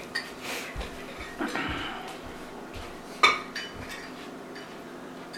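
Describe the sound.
Dishes and cutlery clink as a bowl is fetched and handled. A few light clinks and knocks run through, with one sharper clink standing out near the middle.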